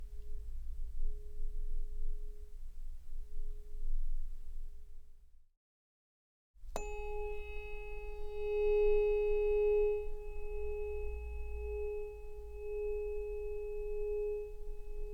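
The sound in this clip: A tuning fork rings with a steady pure tone over a low rumble. After a brief silence it is struck again, sounding bright overtones at first, and then settles into a long, sustained ring that lasts to the end.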